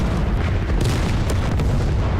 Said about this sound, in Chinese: 不好，矿都炸了！